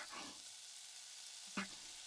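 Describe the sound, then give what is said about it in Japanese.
Meat in a homemade sauce sizzles in a frying pan with a steady, soft hiss. One brief knock or stir sounds partway through. “肉を入れます。うちの自家製ソース付きだからすぐに焼けるんだよね。しかも焼く音も食欲をそそるんだ。”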